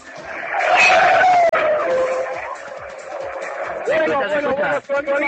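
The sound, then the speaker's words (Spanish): A racing car passing at high speed, a loud engine whine that drops in pitch as it goes by, with people talking over it and afterward. “Bueno, nuestro querido acelerador vuelve a pasar. Es posible que pueda alcanzar en la tercera vuelta sus 300 kilómetros por hora.”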